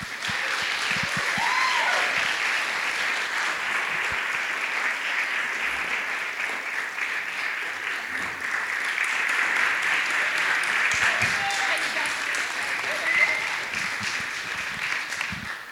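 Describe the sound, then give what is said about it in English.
Sustained audience applause at a Madison Story Slam event greeting a first-time storyteller, many hands clapping in a thick, even wash that holds its loudness for about fifteen seconds with slight swells and no break. “Please put your hands together for Linda Lenski.”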